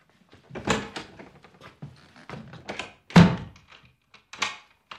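Someone pounds on a closed door in a series of heavy, irregular thuds. The blows come in uneven clusters, with the hardest strike landing about two thirds of the way through, followed by a final strong knock near the end.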